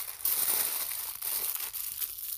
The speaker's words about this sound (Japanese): じゃあまずアルミホイルを片付けます。